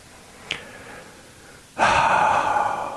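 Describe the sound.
A person takes a deep, heavy breath. A faint click comes first, then a loud, drawn-out breath that holds steady for over a second, with no talk.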